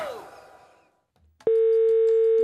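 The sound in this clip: A telephone dial tone for a call to a reception desk starts abruptly after a short fading sound and a moment of quiet, then holds loud, steady and unbroken to the end.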